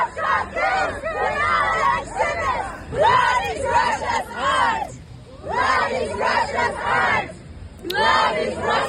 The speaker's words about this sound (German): Es gab Proteste zum Beispiel von den Aktivistinnen von Femen und Pussy Riot. So klang das hier.